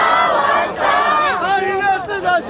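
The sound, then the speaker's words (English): Enthusiastic supporters outside Taipei City Hall call out loudly as the departing mayor leaves, urging him to run for president. Many overlapping voices shout and chant without a break. “As Ke was leaving Taipei City Hall, there were loud calls from enthusiastic supporters asking him to run for president in 2024.”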